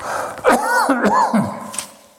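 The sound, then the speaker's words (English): A preacher clearing a tickle from his throat, a few short, rough voiced rasps and grunts in quick succession, fairly loud, with no words spoken. “I hate to get a tickle in my throat when I'm preaching.”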